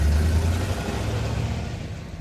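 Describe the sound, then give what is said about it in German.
A car driving, with a steady low engine rumble droning evenly for about two seconds and no voices. “Ich fahre lieber wieder auf die Hauptstraße und nehme den Weg von der Tankstelle, wie immer.”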